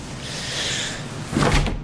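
A door opening or closing: a soft rushing sweep is followed by a short, louder clunk with a rattle near the end, and no voices are heard.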